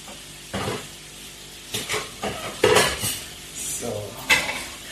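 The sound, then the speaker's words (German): Metal utensils clatter and scrape in a frying pan of cooking potatoes, with a few sharp knocks at irregular intervals over low steady background noise. “die Hauptaufgabe wird jetzt sein, die Kartoffeln gar zu kriegen.”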